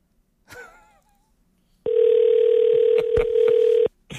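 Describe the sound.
A telephone ringback tone on an outgoing call: one steady, even tone lasts about two seconds and then stops. A short voice sound comes before it.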